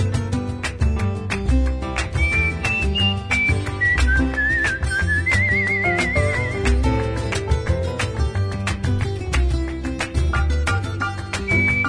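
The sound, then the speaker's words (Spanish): A person whistles a melody in a bright, wavering tone over full instrumental music, with the tune gliding up and down in short phrases through the middle and again near the end. “en la escalera me siento a silbar mi melodía”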